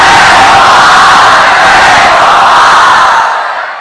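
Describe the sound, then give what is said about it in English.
An audience imitates jackal howls, a loud mass of voices yelling and bellowing together in one sustained roar that fades away at the end. “You kind of sound like the jackals. Much louder, please.”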